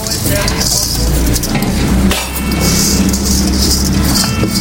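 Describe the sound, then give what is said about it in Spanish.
Rice being added to a cooking pot, with a dense, continuous sizzle mixed with scraping and clinking of pot and utensils throughout, dipping briefly about halfway. “Vamos a agregar el arroz, o soltar.”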